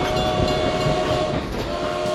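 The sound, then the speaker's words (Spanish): Rail rumble of a train at a working station built in 1892, a steady, loud roar with sustained whining tones running through it for the whole stretch. “Sí, la estación funciona, así que mándalo tranqui el tren, ¿eh? mándalo que venga.”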